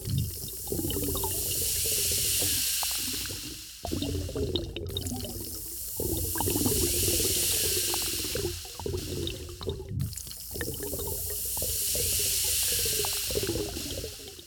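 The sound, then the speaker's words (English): A bubbling, gurgling liquid sound effect stands for fermenting bacteria burping. It is a continuous hissing, fizzy wash of water sound with shifting gurgles that swells and eases in slow waves. “That was the sound of zillions of bacteria burping, of resilient food environments being established, and of trendiness.”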